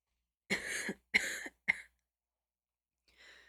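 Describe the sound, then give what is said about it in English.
A man lets out three muffled coughs in quick succession, the last one shortest, against silence. A faint, soft sound follows after a pause. “Luan Chang shook his head, let out muffled coughs”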